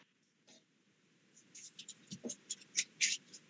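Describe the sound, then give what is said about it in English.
Soft tapping on a computer keyboard, a run of many light, irregular keystroke clicks that starts faintly and grows more distinct toward the end, with no voices. “Just the tapping on the keyboard.”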